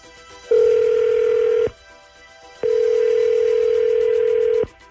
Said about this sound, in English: We're dialing him up. Here we go.